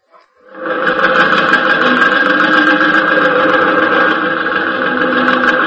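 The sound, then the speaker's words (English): Workshop machines start up together. A dense mechanical whirring drone swells within about half a second to a loud, steady hum, then holds with a constant buzzing, vibrating texture. “start the machines.”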